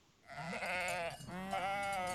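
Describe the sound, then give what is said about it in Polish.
Sheep of the Polish mountain breed bleating: a long, quavering, nasal bleat that breaks off briefly and then resumes, fairly faint and without talk. “hoduję owce, polska owca górska.”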